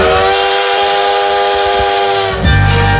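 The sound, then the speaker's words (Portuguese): Loud, sustained whistle of a Maria Fumaça steam locomotive, a steady harmonic tone that shifts abruptly to a rougher, lower tone near the end. “Aí, a nossa locomotiva, nossa Maria Fumaça, rasgando as montanhas de Minas, rasgando as montanhas do Brasil.”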